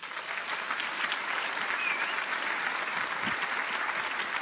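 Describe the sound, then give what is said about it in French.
Applause from a church audience after a prayer, dense, even clapping that holds steady throughout, fairly loud and alone. “Acclamons-les.”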